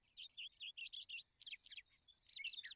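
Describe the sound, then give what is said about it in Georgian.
Birds chirp in the morning with many quick, high-pitched tweets in rapid, broken bursts, some sharp and trilled. The sound is faint overall and there are no voices. “დილით ჩიტების ჭიკჭიკმა გამოაღვიძა”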